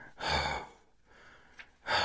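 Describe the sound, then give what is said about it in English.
A human voice imitates a bull's heavy breathing with two loud, breathy huffs separated by a quiet pause. The second huff is cut off at the end. “which is the sound a bull makes when it's breathing”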